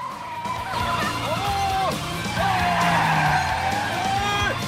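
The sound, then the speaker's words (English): Tires squeal as a car is floored hard in reverse, with repeated high whining squeals bending up and down over a loud engine roar. “He floors the accelerator and the car speeds back in reverse.”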